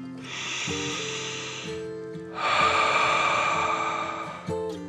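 A deep breath in and out: a long, airy inhale followed by a louder, longer breathy exhale. Both are hissing rushes of air over soft sustained musical tones.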